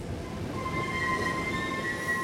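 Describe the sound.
Train pulling into Trier main station, a steady, dense rail rumble with thin, high wheel-squeal tones running through it. No voices are heard.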